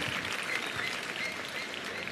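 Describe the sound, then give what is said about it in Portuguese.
Audience applause breaks out for a special guest called up on stage, a dense, steady clatter of many hands clapping that holds at an even level for the whole stretch, with no speech over it. “Palmas para ele.”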